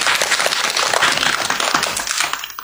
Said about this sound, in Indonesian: Kita beri tepuk tangan untuk teman kita.